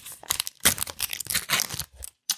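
An envelope is torn open at an award announcement: rough, crackling bursts of paper ripping and crinkling, then a short pause and one last brief rustle.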